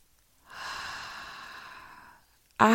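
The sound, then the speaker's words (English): A deep, slow inhale during a guided affirmation breathing exercise, a long, steady, breathy hiss lasting well over a second, then a short hush as the breath is held before a voice begins. “Take a deep breath in. Hold.”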